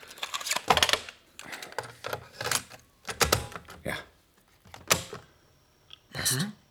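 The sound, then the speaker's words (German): Clicks and clatter as a cassette is handled and pushed into a desk tape recorder: a series of sharp plastic and mechanical knocks at irregular intervals, with short quiet gaps between them. “Probier mal aus, ob sie in den Rekorder auf dem Schreibtisch passt.”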